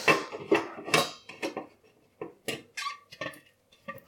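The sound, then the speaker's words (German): Dishes clatter as a plastic bowl is dried with a red tea towel: many short, quiet knocks, scrapes and rubbing sounds in an uneven rhythm. “Da bin ich gegen eine Spitze in der Oberfläche der Plastikschüssel gekommen.”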